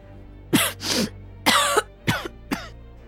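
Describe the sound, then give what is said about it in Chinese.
A woman coughs violently, a few harsh, rasping coughs in an uneven burst, each a short explosive hack with nothing else around it. “又剧烈咳了几声”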